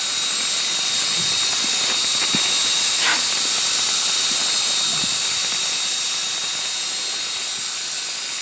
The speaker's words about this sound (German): ein Schneebesen in einem nicht näher definierten Akkuschrauber. Da steht Lithium-Ionen drauf.